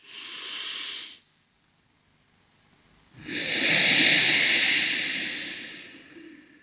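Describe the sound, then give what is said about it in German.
Breathing through the nose: a short airy hiss, then after a pause of about two seconds a longer, louder hissing breath. No talking. “Das probiere ich jetzt mal durch die Nase ausatmen. Also ich atme wieder ein.”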